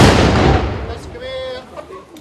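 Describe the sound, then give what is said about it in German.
A ceremonial gun salute fired by members of a pioneer battalion to open an exhibition: one loud, sharp blast that decays over about a second, followed by faint voices. “den Startschuss für die Eröffnung der Ausstellung gaben die Mitglieder des Mansfelder Pionierbataillons. Gebt Feuer!”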